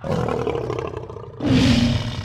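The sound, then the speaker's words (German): A lion roars loudly and deeply, alone, with a rumbling growl that swells stronger partway through. “Löwen?”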